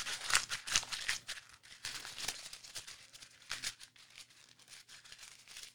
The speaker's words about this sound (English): that noise, it makes me feel good because at least it's a noise and I know that it's paper